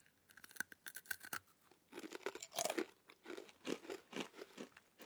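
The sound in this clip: Someone eats banana together with small dried fish, producing many crisp crunches and wet chews in an irregular rhythm. The sound is fairly faint and no one talks.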